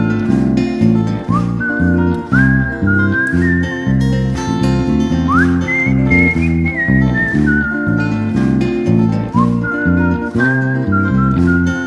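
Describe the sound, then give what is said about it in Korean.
Melodic whistling carries a tune over a steady instrumental backing track. The clear, high notes glide up and down in sustained phrases, loud and continuous for the whole stretch. “휘파람 불며”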